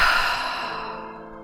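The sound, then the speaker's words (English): A deep breath taken during a breathing exercise in a guided relaxation meditation: a single long, airy rush of breath that starts fairly strong and slowly fades away, with no talking. “big inhale. Continue with this breathing pattern.”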